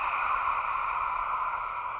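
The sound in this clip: A slow, smooth exhale through the open mouth, as when fogging a mirror, makes a steady breathy hiss held evenly for about two seconds without a break.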